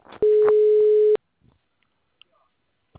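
A telephone ringback tone sounds as a call goes through: one steady, mid-pitched beep lasting about a second, then near silence with a few faint clicks.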